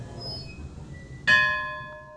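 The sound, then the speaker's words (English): A single bell strike at an art gallery's live-in quarters for visiting artists: one bright, clear ring that follows faint background hiss, then rings out with a slowly fading metallic tone. “And a bell. And a bell.”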